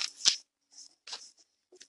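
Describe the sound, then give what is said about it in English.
Shuffling a deck of tarot cards: a few short, crisp, papery swishes and snaps separated by silence, the first one the loudest. “Well, I'm still shuffling the deck, Scorpio.”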